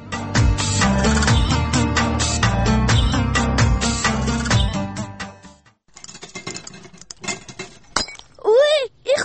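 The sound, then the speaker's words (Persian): A glass jar falls and breaks, a bright crash of glass against loud, sustained tonal sound, then a gap and scattered clinks, with brief voices near the end. “ای سیوم مرتبان است که مشکنانی.”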